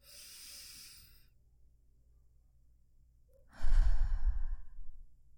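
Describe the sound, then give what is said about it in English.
Deep breathing in and out during a calming breathing exercise: a soft airy exhale, a pause of quiet, then a louder, rougher, hissing breath, with no talk. “let's try the breathing exercise from last time. You know, the 5 deep breaths in and out.”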